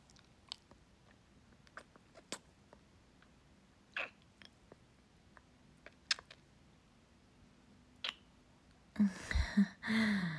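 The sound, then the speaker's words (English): Wet oral sucking and slurping mouth sounds: scattered soft smacks and clicks over a quiet hiss, then a burst of louder, denser slurping near the end. “Take a deep breath. Can you hear it? The sound of me sucking your cock?”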